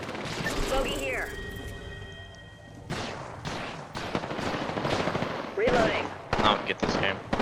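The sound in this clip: Gunfire in a video game, with many sharp, loud bursts of shooting that grow dense in the second half, plus a few short electronic chirps mixed in.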